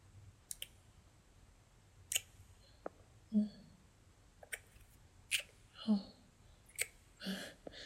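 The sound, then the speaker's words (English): Wet kissing sounds: many soft lip smacks and moist clicks at an irregular pace, some sharp and brief, others slightly drawn out, all fairly quiet and close with no clear talking. “Okay, let me kiss you then.”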